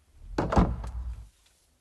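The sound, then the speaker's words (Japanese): A door is shut and barred with a bolt: a few dull, low thumps close together, then a brief scrape that fades into silence. “カンヌキをまたしっかり閉めて、急いで。”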